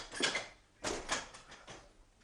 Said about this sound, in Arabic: هذا موعده يا مها، أقوم وأفتح له الباب.